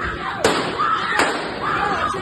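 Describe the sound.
Gunfire echoing in an underground subway station, two sharp pops about a second apart over steady background noise, with some voices faintly present.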